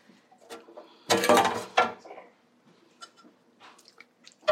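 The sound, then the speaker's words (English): Pasta tipped from a skillet into a big serving bowl: a loud burst of scraping, clattering and wet sliding lasting about a second, followed by a few light clinks of utensils against the dish. “So pasta from the skillet, from the pot, into your serving bowl, your big pasta bowl, your big noodle bowl.”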